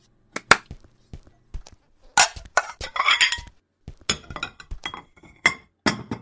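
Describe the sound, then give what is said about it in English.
Plates being brought out and set down make many sharp ceramic clinks and clattering knocks. They come in irregular bursts, some loud and some faint, with short pauses between. “And on that note, it's time to bring out the plates.”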